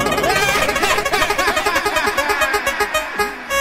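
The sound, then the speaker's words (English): Clicking of a prize wheel being spun: many rapid ticks that gradually slow and space out toward the end, over a dense, loud, busy backdrop. “Okay, I'm going to spin this wheel and see what we get now.”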